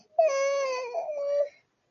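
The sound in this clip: A child crying in a single short wail, high and sustained with a slight dip then rise in pitch, lasting just over a second, heard alone without talk.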